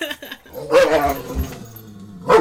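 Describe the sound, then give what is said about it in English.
Excited dogs barking and yelping: a few loud, rough barks with short gaps between them and a whimpering edge, heard without talk. “Look at the dogs. They're just crazy for that blood right now.”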